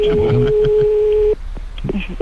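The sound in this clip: A telephone line rings with one steady, mid-pitched tone held for over a second, then cut off abruptly, with voices talking over it and continuing afterward.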